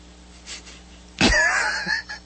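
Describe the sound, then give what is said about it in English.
A single cough bursts out abruptly, a sharp, loud expulsion followed by a short rasping tail, heard alone over a faint low hum. “if you if you just turn your head and cough for us,”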